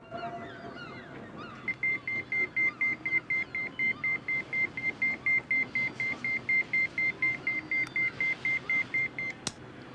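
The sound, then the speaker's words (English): A pager signals an incoming call with a long, steady run of many short, high electronic beeps at an even rapid rhythm. The beeps start after a brief quieter stretch and stay at a constant pitch over a low background rumble. “The polar neck assassin gets a call on his pager.”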